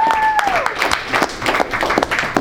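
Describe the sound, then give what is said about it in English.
Audience applause from the crowd at a teen council meeting, dense steady clapping sustained throughout at a fairly loud level, with a brief tone sweeping down at the start. “one more big round of applause for the members.”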